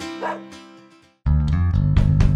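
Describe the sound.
A dog barks and yips in short, bright, loud calls with a clear harmonic tone. The barking stops briefly about halfway through, then a dense, louder stretch follows.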